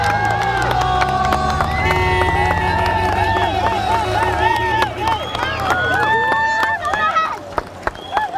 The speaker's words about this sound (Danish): På de nordjyske landeveje er rigtig mange mennesker her til eftermiddag samlet for at se cykelrytterne til PostNord Danmark rundt. I Tylstrup lød det sådan her lidt tidligere på eftermiddagen, da rytterne kom forbi.